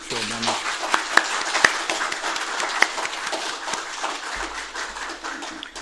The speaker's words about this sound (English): let's give all these veterans a round of applause for what they've done.